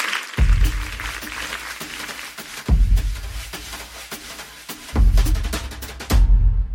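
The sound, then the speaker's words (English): An audience applauds an artist at a live event, a crackling spread of clapping punctuated by four deep booming thumps. “everyone put your hands together for Olivia Glasser”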